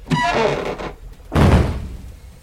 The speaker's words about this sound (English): Okay, stand back. Crate's coming off this thing.